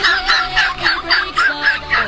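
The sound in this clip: Chickens and a rooster calling in loud, squawky clucks, a rhythmic run of repeated bursts with no talking.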